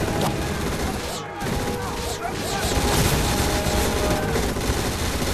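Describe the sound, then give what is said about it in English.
Sustained gunfire with many rounds fired. A loud, dense, unbroken barrage of rapid shots continues with little letup from start to finish. “This whole episode is an example of ammunition fired and not hitting anybody.”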